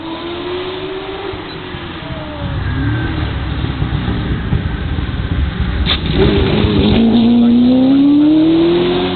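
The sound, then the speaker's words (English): A Ford GT40 race car drives on a track, its engine loud and revving, growing louder partway through, then climbing steadily in pitch as it accelerates toward the end. “here's Rob Sherrard in the GT40”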